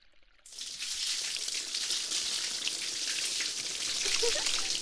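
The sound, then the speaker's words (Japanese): Water sprays through hair, rinsing shampoo from the scalp during a hair wash. After a brief quiet start it cuts in abruptly as a steady, bright hiss that stays constant to the end. “もう一回ですよ。中途半端に流しちゃうと地肌に残っちゃいますよ。入念にもう一回です。”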